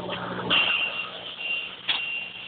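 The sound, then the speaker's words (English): A vehicle engine running just after being switched on gives a steady rumble and hiss with two brief louder surges, and no talk over it. “All right, somebody mute that. Whoever just turned your vehicle on mute.”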